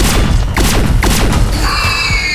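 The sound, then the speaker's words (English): Weapon fire outside a spaceship airlock in a science-fiction drama: several loud booming thuds in quick succession, then a sustained high ringing tone. “Who the fuck fired that weapon?”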